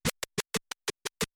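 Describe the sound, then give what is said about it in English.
Record scratching on a DJ turntable using the crossfader, which chops the sound into eight short, crisp bursts. The bursts come in a quick, slightly uneven rhythm, each cut sharply to silence, with no voices. “But notice this sound difference. Not using a crossfader sounds like this, right? Yeah. Using one.”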